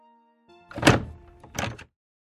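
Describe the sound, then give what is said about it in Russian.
A door is opened with two dull, solid thunks a short gap apart. The first is stronger, and there is no talk. “Старик улыбнулся и открыл дверь.”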